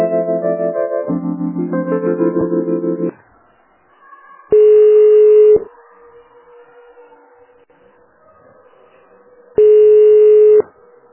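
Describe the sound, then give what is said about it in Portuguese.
Telephone ringing tones while a call is transferred to an office extension. Two steady tones of about a second each are separated by a quiet gap, after a few seconds of a louder tonal passage. “A Rose é no ramal 2497. Eu vou passar para ela, tá?”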